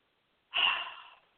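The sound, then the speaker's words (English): A single deep breath, a sharp airy rush that swells abruptly, peaks quickly and then tapers off over under a second, heard alone against silence. “I have to take a deep breath here”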